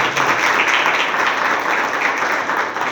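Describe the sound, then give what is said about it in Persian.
Steady, dense applause from an audience, a continuous wash of many hands clapping at an even, fairly loud level for the whole stretch, with no distinct voices rising above it. “ماشاءالله، تشویقش کن.”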